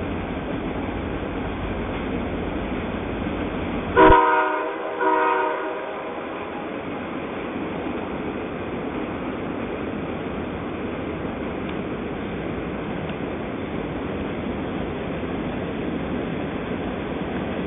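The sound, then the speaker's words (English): Train horn and rail clatter recorded from the Potomac River: a couple of short, loud horn blasts rise over a steady, rumbling rush of wheels on track that continues long after the horn stops. “That was the rail clatter and warning horn of a train recorded from the Potomac River.”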